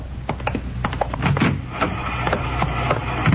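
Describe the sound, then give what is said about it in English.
An IBM machine runs punch cards, giving rapid, irregular mechanical clicks and shuffling clatters over a low steady hum, with many sharp ticks throughout. “She's running all the cards on previous shooting through the IBM machine. She ought to be through about now.”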